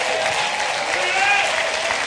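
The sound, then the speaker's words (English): A church audience claps, producing a steady, evenly dense roar of many hands at constant loudness, with a voice faintly present underneath. “See, everybody goes to clapping”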